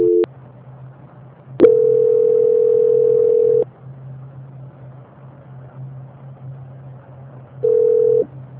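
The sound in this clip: Telephone tones play during a call transfer: three tones, a short one, a long steady one lasting about two seconds, and another short one near the end. A low constant hum runs underneath throughout.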